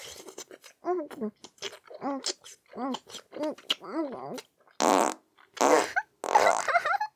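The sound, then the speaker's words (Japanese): Farts: three loud, broad, blowing bursts in the second half, preceded by a run of short hummed vocal grunts. “くっさいおなら”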